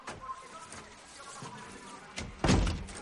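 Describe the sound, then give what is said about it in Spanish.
A door shut in a house where the owner lies dead, heard as a faint click and then a single dull thud near the end over a quiet, hissy background. “cierra la puerta.”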